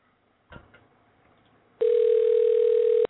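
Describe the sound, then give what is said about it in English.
A telephone dial tone while a call is being placed to a guest on a call-in show: a soft click, a short quiet pause, then a steady, loud, unbroken tone that holds for a little over a second until it cuts off. “So dial in right now”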